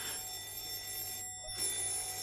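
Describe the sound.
A telephone rings with a faint, steady electronic trill that pauses briefly in the middle before resuming.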